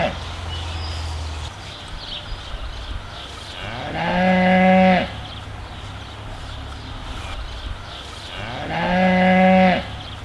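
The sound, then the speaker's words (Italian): A calf moos twice, each call a short harmonic bellow lasting under a second, separated by a few seconds of low steady background noise. “il vitello”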